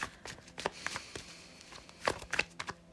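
Soft shuffling and snapping of tarot cards being shuffled and drawn during a reading, a few quiet crisp rustles and taps spread out over a faint background.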